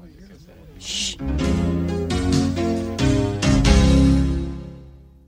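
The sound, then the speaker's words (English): Gracie Films sonic logo, heard after episodes of The Simpsons: murmured chatter and a hush, then a full sustained chord that swells and slowly fades. “That was the Sonic logo for Gracie Films, which you might have heard after an episode of The Simpsons.”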